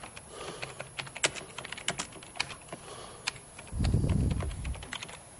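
Typing of a SQL select count query on a computer keyboard: many light, uneven key clicks in bursts and pauses, fairly faint, with no voices.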